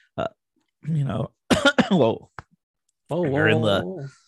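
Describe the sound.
Coughing and throat clearing: a few short, rough vocal bursts followed by a longer voiced, rasping throat-clearing sound, loud and separated by brief pauses, with no words spoken.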